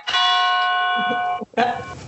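Church bell ringing at a church in the Drôme: a rich, sustained ringing tone full of overtones, then a brief gap and a second strong stroke.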